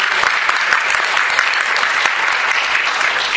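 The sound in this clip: Dense applause for a panelist just introduced at a comics industry panel, with steady, many-handed clapping that holds an even level throughout with no pauses.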